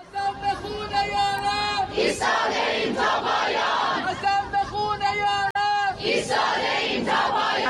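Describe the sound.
A crowd of protesters loudly shouting the names of Iranians killed for freedom, many voices chanting together in strong, ringing bursts with a brief break near the end.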